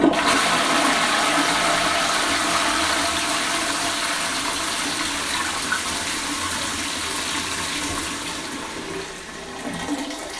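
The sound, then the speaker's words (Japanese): A toilet flushes in a long, loud rush of water that holds steady for several seconds and then slowly tapers as the bowl refills. “そんな月曜朝一うんちレポートでした。それじゃあ会社に行かなきゃいけないので。流します”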